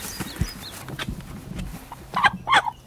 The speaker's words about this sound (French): il y a le coq là qui nous surveille. Mais... Il est costaud le coq là.